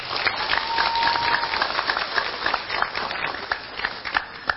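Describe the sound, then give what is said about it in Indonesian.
Applause from an audience at a speech in Indonesia: dense, steady clapping that carries through the whole clip at an even level, with no clear voices over it. “Tepuk tangan untuk Indonesia.”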